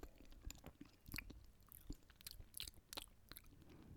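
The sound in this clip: Someone chews a bite of rhubarb cake. Many soft, irregular, slightly crunchy and moist mouth sounds follow one another, faint and without speech.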